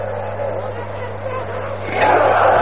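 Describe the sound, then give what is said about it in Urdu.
A large crowd chants slogans at a rally as a leader arrives: a dense, continuous roar of many voices that swells noticeably louder near the end. “تھوڑا سا نعروں پر تھوڑی سی کمی کیجئے تاکہ تسلسل کے ساتھ میں اپنی بات کر سکوں.”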